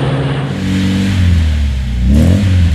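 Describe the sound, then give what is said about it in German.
A 1970 Opel Manta A car engine revs: a loud, continuous, low-pitched mechanical drone that stays steady and then swells and rises slightly in pitch, with no speech. “Und wann testen Sie ihn? Opel Manta, weil man was vom Fahren versteht.”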